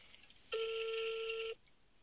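One ringback tone sounds on an outgoing telephone call: a single steady electronic buzz lasting about a second, with quiet line noise before and after.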